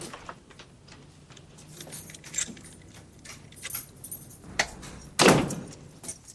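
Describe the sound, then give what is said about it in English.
Keys are thrown down by a woman arriving home. Scattered small metallic jingles and taps lead up to a sharper clink and then a louder jangling clatter near the end, with no talking. “Karen arrives home with Chucky and throws down her keys.”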